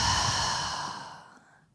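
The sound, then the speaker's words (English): One deep, slow exhale of breath during a guided breathing exercise, a soft, airy rush that starts full and fades gradually to silence in under two seconds. “Take a deep breath, inhale. And exhale.”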